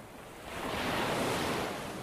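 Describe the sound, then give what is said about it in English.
Sea waves washing onto the shore, a broad rushing swell that builds to a peak and slowly ebbs, with a windy hiss running through it. “Finally, the two of us arrive at the sea.”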